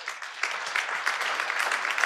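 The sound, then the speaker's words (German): Steady, dense applause from an audience welcoming a mayor at a public event, a continuous crackle of many hands that holds at an even level through the short stretch, with no voices standing out. “Jetzt nehme ich gleich den Bürgermeister von Mundafing. Sie kommen ganz weit angereist. Herzlich willkommen, ein Applaus für Sie.”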